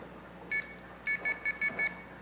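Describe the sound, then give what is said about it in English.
A payphone's coin tone oscillator, triggered by the totalizer when a quarter is inserted, gives one faint high beep and then a quick run of five short beeps over a steady hiss. “Now when a quarter is inserted to this payphone, the totalizer detects that and it triggers the coin tone oscillator. For a quarter, it triggers it 5 times.”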